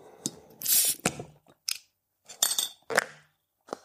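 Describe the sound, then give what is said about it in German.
A corked half-litre glass bottle being opened: a few short, faint bursts of scraping, squeaking and clinking glass-and-cork handling, separated by brief silences, with no voices. “Dann wollen wir doch mal die Flasche öffnen.”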